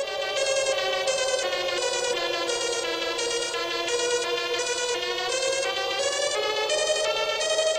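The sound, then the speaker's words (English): A mind-controlled synthesizer built from a Mattel MindFlex toy gives a sustained buzzy, harmonically rich tone that pulses in a fast regular pattern, its pitch drifting slightly upward toward the end. “The sound you're hearing is the Teletron, an invention of Schneider's that is equal parts science and magic.”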